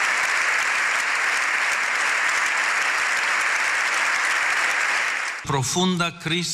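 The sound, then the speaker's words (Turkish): Sustained applause from a parliament's general assembly giving Pope Leo XIV a standing ovation in Spain: a dense, even roar of clapping that continues steadily, then drops away as a voice begins speaking near the end. “Papa 14. Leo İspanya'da Meclis Genel Kurulu'nda konuştu. 7 dakika ayakta alkışlandı.”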